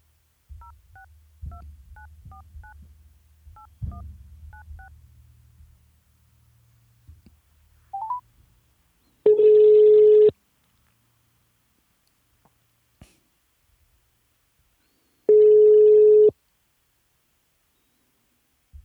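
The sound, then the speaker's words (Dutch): A telephone number is dialed on a keypad as a quick string of touch-tone beeps. After a pause come two long, steady ringback tones, separated by several seconds of near silence. “Dus ik ga Smally zo meteen even bellen.”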